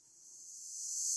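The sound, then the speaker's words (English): A reversed cymbal sample swells as a bright, airy hiss that grows steadily louder over about a second, with no attack at the start. “in Logic, I'm sure you can do this with other DAWs, is I'm going to reverse that sample. So it now sounds like this.”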